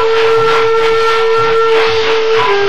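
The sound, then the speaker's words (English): A train braking and slowing on arrival at Laramie gives a loud, steady squeal-like tone over broad rumbling noise. It runs continuously, and its pitch dips slightly near the end. “The brakes are applied and the train slows down.”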